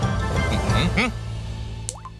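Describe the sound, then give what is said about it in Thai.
Dripping of rain just starting to fall, with soft drops and plops under voices talking, and a brief high chirp near the end. “อะไรเนี่ยฝนนี ่ตกแล้วฝนตกแล้ว”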